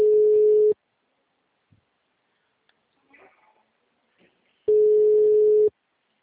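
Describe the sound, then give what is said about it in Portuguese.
Ringback tone of an outgoing telephone call: two steady, low electronic tones, each under a second long, separated by about four seconds of near silence with faint stray noises. “Daqui eu tô tentando entrar em contato, tô ligando pra ela aqui. Tá chamando até a caixa postal.”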